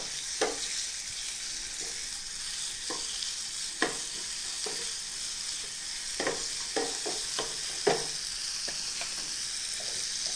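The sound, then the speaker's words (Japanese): Stir-frying in a pan with a spatula: a steady, bright sizzle runs throughout, broken by many sharp knocks and scrapes of the spatula against the pan. No one speaks. “これもだいたいヘラで混ぜながら30秒ほど炒めていただければ結構”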